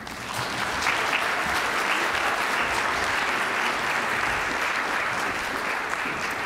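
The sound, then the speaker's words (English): A conference audience claps to welcome Florida's Attorney General as speaker. The full, dense applause swells at the start, then holds loud and steady without a break. “So please give her a hand and a great welcome.”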